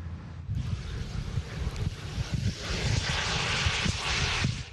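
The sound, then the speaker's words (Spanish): A Magma unmanned aircraft prototype, a lightweight experimental plane from England with no moving parts, flying past as a steady whooshing engine roar mixed with wind noise, fairly faint and growing brighter toward the end. “Este es el Magma, un vehículo aéreo no tripulado que es el primero en su tipo.”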